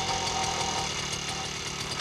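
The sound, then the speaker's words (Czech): A small ride-on lawn mower engine runs with a rapid, even putter over a continuous rattling hum. It is steady and moderately loud, with no voices. “Já jedu a řídím strojek, který seče trávu.”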